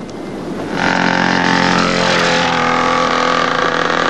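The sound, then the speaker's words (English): A dirt bike engine roars in suddenly as it speeds past people outside a hotel, then holds a loud, buzzing, harmonic-rich drone for several seconds without voices. “a dirt bike nearly mows them down”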